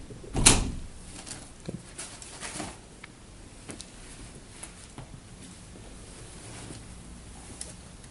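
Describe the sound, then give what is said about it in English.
A window is opened with a single sharp knock near the start, followed by faint, scattered taps and clicks against a quiet background. “Let's open a window.”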